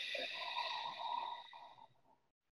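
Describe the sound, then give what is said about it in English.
A single long, deep breath through the nose and mouth, a soft airy rush that stays steady and then fades away to silence. “take another deep breath in through your nose. So breathe in as inhale in. And then hold. And exhale out through your mouth.”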